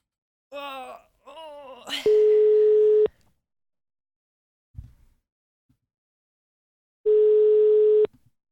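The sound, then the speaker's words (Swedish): Ringback tone of an outgoing telephone call while dialing: two long, steady, buzzy beeps of about a second each, separated by a long silence, with a few brief, faint sounds before and between them. “Nu ringer vi Anders.”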